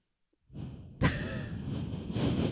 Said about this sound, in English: They can hear your breath.